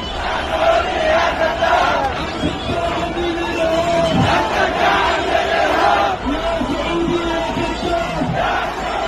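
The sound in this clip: A street protest crowd chants against Saudi guardianship at a popular demonstration over the southern cause, after the southern transitional council was ordered dissolved. Loud, continuous massed voices rise and fall in rhythmic shouts.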